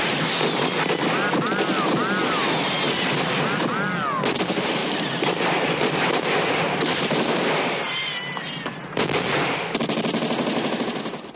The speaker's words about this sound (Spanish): Un alemán lanza una bengala hacia la posición de Andrea. El cretense se aleja mientras una lluvia de balas cae sobre su última posición.